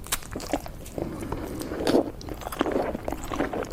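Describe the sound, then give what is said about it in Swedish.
Soft chewing and biting on a slice of cake, with faint moist crunches and occasional scraping in an irregular rhythm. The sounds are quiet and close, and no one speaks. “nu sitter jag här och äter en god tårtbit.”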